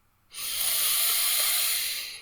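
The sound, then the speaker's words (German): A slow, steady breath is drawn in through the nose during a guided breathing exercise, a soft airy hiss that swells and then gently tapers over about two seconds, with no talking. “Nochmal einatmen durch die Nase.”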